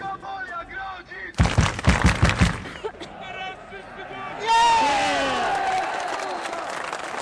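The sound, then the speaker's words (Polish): Crowd noise in a pub near a football stadium during a match: talk at first, then a short burst of sharp banging or clapping, then a loud swell of many voices shouting and calling together. “Pub niedaleko stadionu podczas meczu.”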